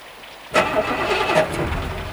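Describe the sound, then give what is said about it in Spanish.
A car engine cranks but fails to start, blamed on a dead battery: the starter churns on abruptly and keeps grinding steadily for under two seconds without the engine catching. “No arranca. Y con esta noche... será la batería.”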